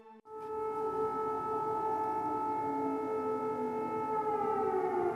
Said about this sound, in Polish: Zawyły syreny alarmowe.